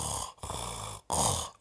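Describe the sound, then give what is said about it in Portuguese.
A voice imitates the involuntary breathing of an unconscious man knocked out by a rear-naked choke, as in a UFC fight: a few heavy, rasping, snore-like breaths with brief silent gaps, fairly loud and without words. “Mata leão e apaga, e ele fica respirando, tipo.”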